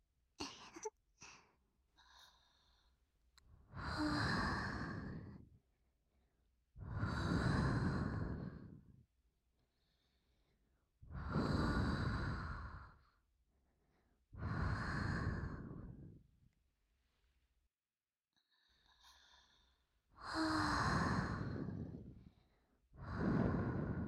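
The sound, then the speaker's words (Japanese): Slow, deep human breaths: several long, airy breaths come one after another with quiet gaps between them, steady and unhurried, with no talking. “ゆっくり呼吸をせよ。そうじゃ。”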